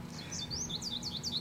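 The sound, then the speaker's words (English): Birds tweeting in the background of a film, a rapid series of many high, thin chirps repeating in a quick rhythm, faint and with no talk over them. “didn't it feel like 20 minutes of hearing those birds tweeting in the background?”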